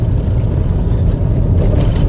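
A car drives along with a dense, loud, steady low rumble of engine and road noise that holds constant, with no separate events.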